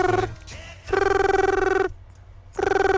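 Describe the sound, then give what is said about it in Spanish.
A telephone rings in trilling, warbling bursts, one long ring between shorter fragments at the start and end, as a man calls his girlfriend to tell her he has signed. “Le llama a Juan, el honrado Juan, a su novia para avisarle que ya firmó.”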